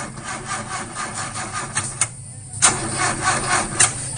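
An old car's engine cranking and struggling to start, a rhythmic grinding starter whir that repeats without catching, stops for a brief pause, then resumes with louder, more urgent pulses.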